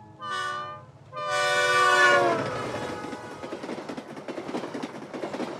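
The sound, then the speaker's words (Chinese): Train horn blasts twice on a rail journey back to Beijing, a short call and then a longer one, before the steady rhythmic clatter of wheels on track carries on alone. “我们先坐火车回了北京”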